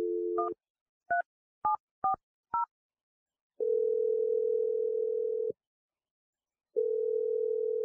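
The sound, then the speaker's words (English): A telephone dial tone gives way to a few short keypad beeps as a number is dialed, then two long, steady ringing tones separated by silence. “We'll jump in when we feel like you need a little bit of extra help, but I'm dialing the number right now.”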